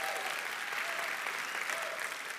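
Continuous applause from a church audience welcoming the audience's other locations: a dense, steady wash of clapping that holds at an even level throughout without pause.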